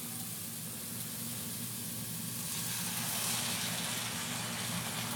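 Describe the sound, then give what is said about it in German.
Steak sizzling in a hot pan with the lid opened: a steady, broad hiss that grows slightly louder partway through and stays faint and continuous, with no voices. “Oh ja, wenn man den Deckel aufmacht, hört man schön. Hauen wir doch mal das schöne Steak rein.”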